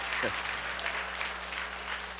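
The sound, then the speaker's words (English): An audience applauds a trick horse performance, a dense, steady patter of many hands clapping at an even level throughout. “And if you've enjoyed Champ the Smiling Trick Horse, give him a round of applause.”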